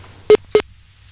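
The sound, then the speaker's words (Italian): A dropped phone line during a radio call-in sounds as two short, identical mid-pitched beeps separated by a brief gap, over faint low hum. “È caduta la linea. Non so che è successo.”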